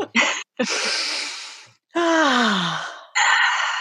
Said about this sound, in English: Should we start with a deep breath?